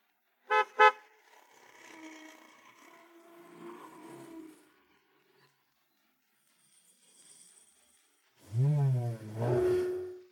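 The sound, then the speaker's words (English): A garbage truck pulling up behind a garage gives two short, sharp horn toots, then a low engine rumble that runs for a few seconds and fades. “Garbage truck, pull up behind the garage.”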